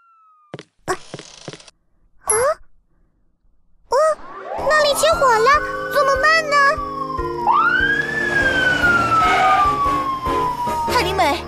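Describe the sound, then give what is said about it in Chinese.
A fire engine siren wails loudly and continuously, its pitch sweeping up and then falling slowly, after a few short bursts of other sounds at the start. “啊，这是消防车的声音。”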